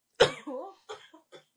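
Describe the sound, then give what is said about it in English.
A woman fighting a persistent cough: one sharp, loud cough followed by a voiced, rasping breath and three smaller hacks that fade out. “I'm really sorry. I was trying to avoid this cough the whole time, but you can't stop the coughing.”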